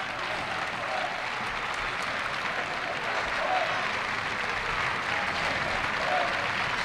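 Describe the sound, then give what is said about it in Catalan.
Applause from a small group of about 80 away football supporters at Eldense's ground, clapping as the players come over to thank them after a very important win; steady, dense clapping with no breaks, continuous and even in loudness throughout. “S'apropen els jugadors a agrair el suport d'aquests 80 aficionats. És la primera vegada que poden celebrar una victòria importantíssima. I alegria entre els aficionats,”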